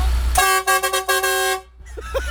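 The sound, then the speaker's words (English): A lorry horn blares at a truck convoy event, sounding as one long, loud, brassy honk broken by a few brief dips, then cutting off to quieter background with faint vocal sounds. “Give us a quick honk.”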